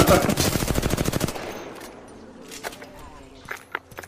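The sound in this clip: Automatic gunfire in the video game Apex Legends Season 18 rattles out as a rapid, loud burst of evenly spaced shots, then drops to quieter scattered clicks and thuds.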